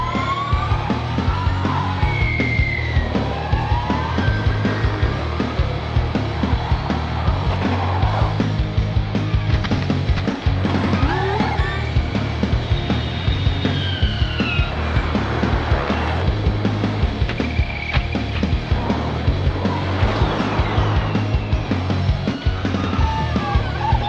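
Electric Formula E race cars at the Misano circuit: a continuous loud whirr of motors, with high tones rising and falling as cars pass, over a steady low rumble.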